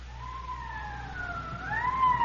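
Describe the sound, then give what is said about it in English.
Police car siren wailing on a code 3 run to a holdup and shooting call at a street corner, a loud, steady tone that sweeps slowly up and down in pitch with no voices. “Code 3, that means red light and siren.”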